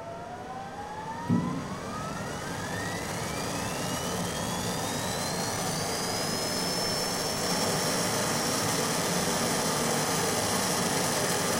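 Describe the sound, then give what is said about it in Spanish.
A rocket lifting off: a loud, steady roar runs throughout while a whine climbs smoothly in pitch and then levels off, after a brief thump near the start. “salimos en 10, 9, 8, 7, 6, 5, 4, 3, 2, 1, despegue.”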